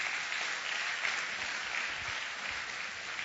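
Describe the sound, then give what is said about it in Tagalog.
Applause from a church audience during a worship service: dense, steady clapping that fills the whole clip at an even level, with no clear voices over it. “Pwede bang palakpakan natin ang ating Panginoong Jesus?”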